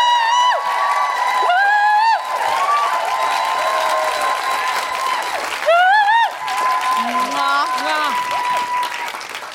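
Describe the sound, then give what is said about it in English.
Audience applause mixes with loud cheering and high whoops as a guest is welcomed, the clapping a continuous wash beneath several rising and falling shouted tones. “Put your hands together and make enormous, guilty feminist welcoming noises for the wonderful Jennifer Sheridan!”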